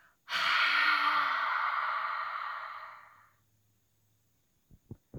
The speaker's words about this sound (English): In through your nose. Hold for 4 seconds. And then breathe out.